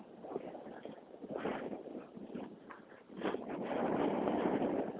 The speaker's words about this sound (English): Damn, that wind is sharp.